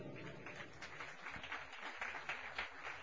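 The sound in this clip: Congregation applause at a church Bible study, a steady, fairly faint wash of clapping that continues evenly for about three seconds.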